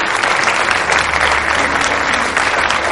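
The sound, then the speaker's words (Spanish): Audience applause in a film after a trumpet performance on a stage with a piano, a loud, dense and steady roar of many hands clapping without a break. “Ella sonríe. Aplaude.”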